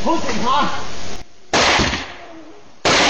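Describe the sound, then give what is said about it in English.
Gunshots in a played recording of a road-rage confrontation: a voice speaks, then two loud, sharp, harsh blasts follow after a short pause, each with a brief ringing decay. “He pulled the trigger too quickly.”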